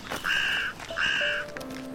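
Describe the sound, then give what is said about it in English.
Carrion crows cawing near a woodland path: two harsh, drawn-out caws, fairly faint, separated by a short pause, with a little softer bird calling after. “I heard some crows in the background a short time ago. The carrion crows have quite a substantial population here. And they're very noisy.”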